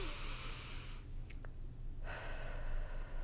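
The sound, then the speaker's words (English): A deep breath is drawn in as a soft, airy hiss over a steady low hum. After a brief lull, the breathy rush returns. “So you breathe in,”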